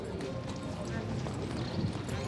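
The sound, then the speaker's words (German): Hooves clop as a mare wearing transport boots is led into a horse trailer after a show-jumping derby. The footfalls are faint and steady, under dense, constant background noise. “Sogenannte Transportgamaschen sollen die Stute vor Verletzungen während der Fahrt schützen. Sie ist die erste, die in den Transporter geführt wird.”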